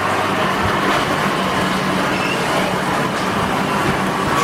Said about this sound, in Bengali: Metro Tollygunge ঢুকছে।